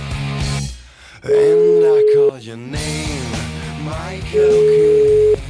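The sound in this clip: A telephone line ringing while a call is placed, with two long, flat ring tones of about a second each. People talk around and between the rings.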